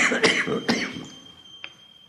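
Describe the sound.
Two sharp coughs close together, each a short harsh burst, followed by quieter fading noise.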